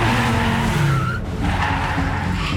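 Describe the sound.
Tires skid and squeal in a long, loud, unbroken screech as a car reverses and turns right, with engine noise underneath and a brief dip in the middle.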